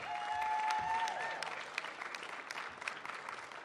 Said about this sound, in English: could you put your hands together and you can welcome Matt Gonzalez here today.